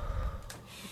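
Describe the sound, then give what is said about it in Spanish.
A quick, audible intake of breath with a gasp-like rush, taken during a slow breathing exercise of inhaling, holding and exhaling. It is brief and soft, with no voice. “Entonces, inhalo, sostengo el aire, y el exhalar digo, ven Espíritu Santo.”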